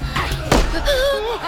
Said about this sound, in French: Un coup de feu! Quelqu'un tire au pistolet sur les Perses!